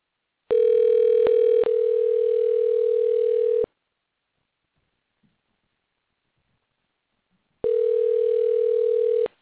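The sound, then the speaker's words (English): A telephone tone sounds while a call to someone is being placed. Two long, steady tones are separated by a few seconds of silence, and brief clicks break up the first tone. “All right, dialing him in right now.”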